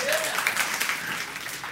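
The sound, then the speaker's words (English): Audience clapping, a moderately dense patter of many hands that starts fairly loud and gradually thins and fades over less than two seconds. “That actually is worth a clap.”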